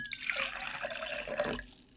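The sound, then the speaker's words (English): About three ounces of water poured into a glass for a drink mix, a steady bright splash lasting about one and a half seconds before it stops abruptly. “So I think first I'm going to add the water. I'm assuming this is roughly like 3 ounces of water.”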